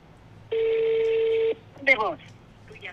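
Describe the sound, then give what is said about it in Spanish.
A telephone number is dialled on a keypad, giving one sustained electronic beep of about a second. People then start talking briefly after it. “Márcale, márcale, compadre, hasta que te conteste. A ver, vuelven a marcar tú”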